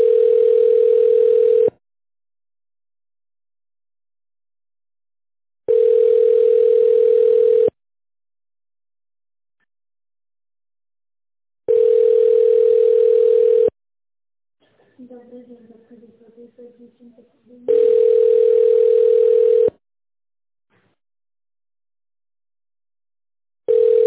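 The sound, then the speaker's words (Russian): Ringing tone on a telephone line as a call is transferred to a secretary: four steady, mid-pitched beeps of about two seconds each, evenly spaced by silence, with a brief voice heard between the third and fourth. “Давайте вас на секретаря переключу.”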